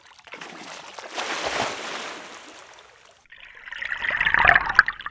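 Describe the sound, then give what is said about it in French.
Water splashing as someone jumps in to escape: a broad rushing splash, then a louder burst of bubbling, fizzing water that swells toward the end. “Je dois sauter dans l'eau, autrement ils vont m'attraper.”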